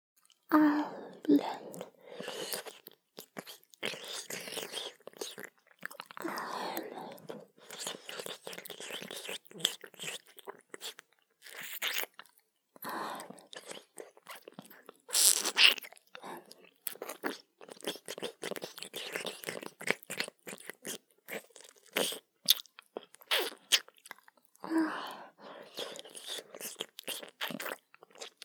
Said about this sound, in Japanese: 次、舌を中心にした音にします。